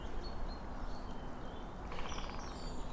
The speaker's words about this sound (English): And for the birds, this is well into spring. There's a song thrush here.